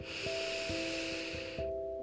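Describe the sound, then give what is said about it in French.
A long, deep breath drawn in through the nose: a soft, steady airy hiss lasting about a second and a half, then stopping, over quiet sustained musical tones. “Vous pouvez prendre une grande inspiration par le nez”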